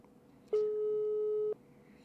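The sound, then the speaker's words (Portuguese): A single steady telephone tone sounds on a call while waiting for an answer. It lasts about one second at a fixed pitch, alone over faint background hiss. “Será que o Edelso atende?”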